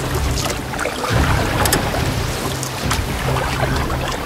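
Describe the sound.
Water washes steadily around a boat as it is rowed toward shore at sea. A loud, continuous rush of water and wind carries a few brief splashing accents.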